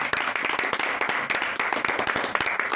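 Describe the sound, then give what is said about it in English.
Applause from an audience at a fan event: a dense, steady stream of many hands clapping, loud and continuous throughout, with no clear voices above it. “So I think we should give them a big round of applause as well.”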